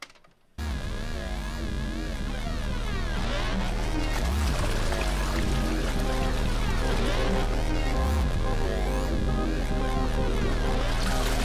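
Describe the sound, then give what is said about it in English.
Toilet flushing sampled in a song by a German band: a dense, continuous gushing water roar blended with music. Loud and steady throughout after a brief quiet start. “This song heavily samples toilet flushing as a satirical jab at the idea of sampling. That was what that sound was?”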